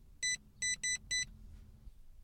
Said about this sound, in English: Right, and I'm going to start the car. First, I'm going to punch in the secret code.